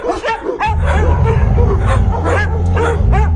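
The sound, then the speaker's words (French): A thin stray dog, roused from lying curled on pavement, barking: loud, sharp yips and barks in quick succession, with whimpering notes among them. “L'animal se dresse paresseusement sur ses pattes maigres et aboie en direction de Paul.”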